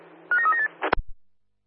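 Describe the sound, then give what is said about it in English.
Telephone dialing tones play as a quick run of short touch-tone beeps at changing pitches, then a brief clunk and a soft thud before silence. “Can you please give me a ring over? Roger, dialing now, CSO Perth.”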